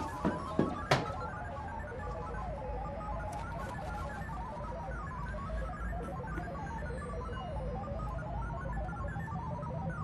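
A phone rings with an incoming call, a faint looping electronic melody sounding steadily through a busy, noisy background, with a few sharp knocks near the start.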